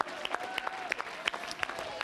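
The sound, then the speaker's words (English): A church audience clapping their hands, a fairly faint patter of sharp, irregular claps from many people. “Let's clap our hands unto him.”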